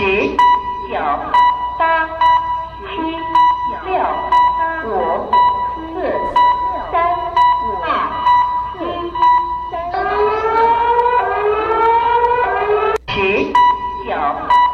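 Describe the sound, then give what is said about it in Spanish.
A Chinese earthquake early warning alert sounds as loud, repeated electronic tone bursts in a steady rhythm with a voice mixed in, then changes to rising, siren-like sweeps before a sharp click near the end. “La de China, la alerta sísmica se escucha así.”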